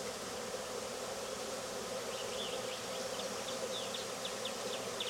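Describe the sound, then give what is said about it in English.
Swarm of honey bees with brood, a dense, continuous buzzing drone of many wings that holds steady and even throughout, with no voices. “Especially since they had brood, you know. Swarms are usually nice until they get a hive, but when they got brood, they got just as good a reason to be angry as anybody.”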